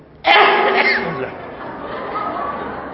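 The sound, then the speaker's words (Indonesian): A single sudden sneeze bursts out during a lecture in a mosque. It is loud and abrupt, then trails off into a quieter stretch of low background noise. “Afwan, ini bersin.”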